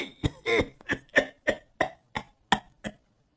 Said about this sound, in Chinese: 李善长坚持说完最后三个字儿，不停地猛咳了起来。他一边咳，一边不忘了用眼睛去留意朱元璋的表情。